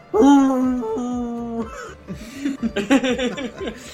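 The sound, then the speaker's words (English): A man's voice imitates an old basset hound, giving one long, sustained, droning howl that sags slightly in pitch, then breaks into a few short, choppy, chuckling vocal bursts. “I'll see a old basset hound dog sitting there waiting patiently, just lets out a”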